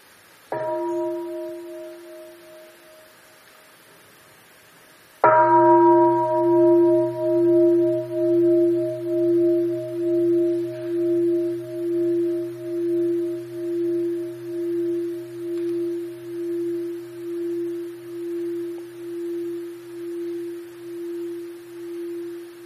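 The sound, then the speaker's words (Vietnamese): A Buddhist mindfulness bell is struck twice. The first, softer strike fades out, and the second rings loud with a deep, sustained tone that pulses slowly as it decays. “Nó làm cho cái chuông không có đau, nó giúp cho cái tiếng chuông như là một con chim bồ câu từ lòng chuông bay lên rất là nhẹ nhàng.”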